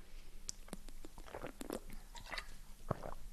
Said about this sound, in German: Macht es euch gemütlich, ich trinke nochmal einen Schluck.